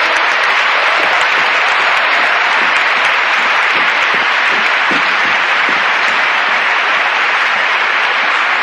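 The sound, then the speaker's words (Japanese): Big round of audience applause at a Japanese-language talk, a loud, dense roar of clapping that holds steady and unbroken for about nine seconds. “はい、1、2、大きな拍手。”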